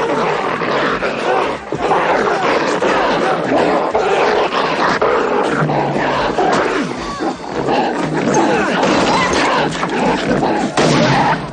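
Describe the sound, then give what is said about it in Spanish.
Dogs snarl and attack people while bar customers crowd around a fight in a 1990 action police film, a loud, dense, continuous mix of growling and roaring with thuds of struggle throughout. “Todos los clientes lo rodean para disfrutar de la pelea. Al poco, otro perro hace aparición y se ensaña con la gente.”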